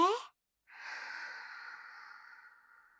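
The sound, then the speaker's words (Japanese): Breathing during a guided relaxation exercise: a brief voiced sound, a short pause, then one long, steady, airy breath that carries on for over two seconds and slowly fades. “吐いて。吸って。”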